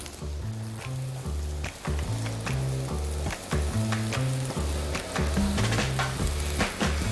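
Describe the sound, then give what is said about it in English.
Green and red bell peppers, squash and onion sizzle on a grill, a steady, bright hiss over rhythmic low tones that continue underneath. “and then we're gonna add some vegetables, some bell peppers, green, red bell peppers, some squash, and some other little vegetables to go on top, and onion.”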